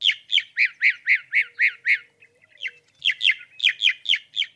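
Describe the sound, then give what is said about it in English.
A mockingbird calls in rapid, harsh, squawky chirps. About eight evenly spaced notes come in a steady run, then a short pause, then another quick series of similar notes, each loud and bright. “Well, the answer on my sheet is mockingbird.”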